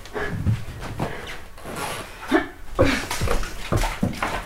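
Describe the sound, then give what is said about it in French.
Water filling a water bottle, a continuous splashy rushing with uneven surges and rubbing, gurgling bursts, with no talk over it. “Attends, je vais faire ma bouteille d'eau.”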